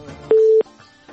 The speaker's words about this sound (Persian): بله تماسشان متاسفانه قطع شد.